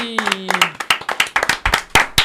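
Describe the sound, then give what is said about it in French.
Scattered audience clapping in a rap radio studio after a performance, fairly loud, irregular claps from a small group, with a brief voice at the start. “Et on applaudit.”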